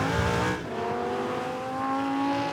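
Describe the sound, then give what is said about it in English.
A Lamborghini Huracan drift car with a 5.2-litre V10 engine drives on a track, giving a loud, continuous engine roar with a sustained tonal whine that dips briefly after a strong opening. “The drifting Lamborghini was based around the Lamborghini Huracan standard 5.2 litre V10 engine.”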